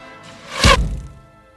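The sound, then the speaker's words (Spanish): An arrow strikes an apple and splits it in two: a single sharp thunk lands in the middle, preceded by a faint rush and followed by a brief dull ring-off. “el impacto fue certero y la manzana quedó seccionada, quedó partida en dos.”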